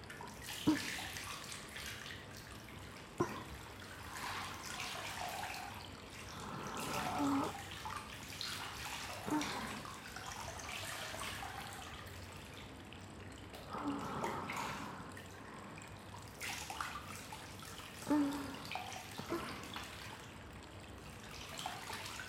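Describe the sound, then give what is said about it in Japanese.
Hot water is poured with soft splashes and trickles, coming in several faint, separate pours with quiet gaps between them. “またお湯かけます。”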